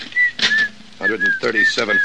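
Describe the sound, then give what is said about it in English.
A person whistles creepily in a series of short, high, wavering notes. Busy, clattering and voice-like sounds run underneath. “Look, stop that creepy whistling, will you?”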